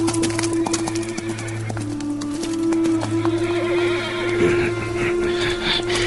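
A horse neighs beside clopping hooves as a man mounts into its saddle after the market, the whinny rising briefly over a steady low tonal drone.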